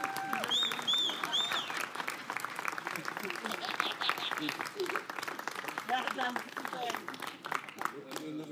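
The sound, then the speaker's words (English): Sustained audience applause welcomes a speaker, dense steady clapping filling the whole stretch at even loudness, with crowd voices mixed into the clatter. “Can you give a warm round of applause to possibly the greatest communicator in our lifetime? Can we welcome them as they come forward?”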